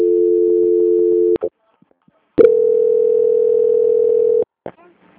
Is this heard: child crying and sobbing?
no

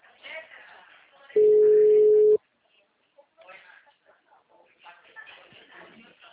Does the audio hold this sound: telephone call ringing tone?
yes

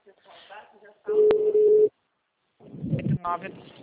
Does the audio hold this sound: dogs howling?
no

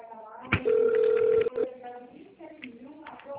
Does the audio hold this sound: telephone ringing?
yes

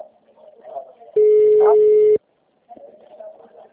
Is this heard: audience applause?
no

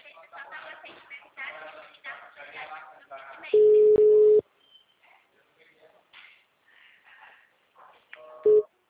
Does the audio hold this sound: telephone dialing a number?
yes

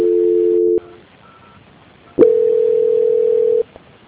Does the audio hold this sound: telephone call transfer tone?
yes

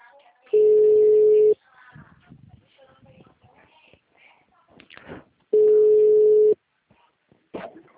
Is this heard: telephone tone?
yes

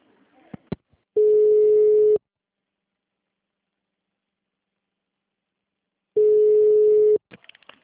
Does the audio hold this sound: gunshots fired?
no

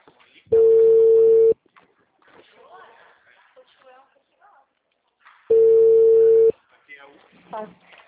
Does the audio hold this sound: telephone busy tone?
yes

